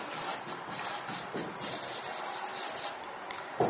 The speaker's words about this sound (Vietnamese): Bây giờ tôi vẽ từng cái cho quý vị thấy nè.